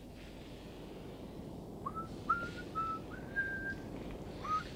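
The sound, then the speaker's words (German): A person whistles a simple tune in a string of clear, thin, sustained notes that shift slightly in pitch. The whistling is faint over a steady low background rumble, with no talking. “Könntest du nicht mal was anderes pfeifen?”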